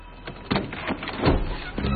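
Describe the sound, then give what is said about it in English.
Van doors opening: muffled sliding and scraping with a few dull knocks, moderately loud and rising toward the middle, with no voices present. “The van doors open, revealing Amanda and Jane bound and gagged.”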